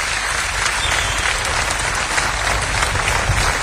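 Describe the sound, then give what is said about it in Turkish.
Audience applause welcomes a guest onto the stage at a live program: dense, steady clapping from a crowd that holds an even loudness for several seconds with no voices over it. “Kendisini alkışlarınızla davet ediyorum.”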